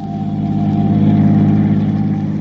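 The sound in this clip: Car engine droning while driving along a road with a few turns, a steady low hum that swells slightly in the middle, continuous and free of talk.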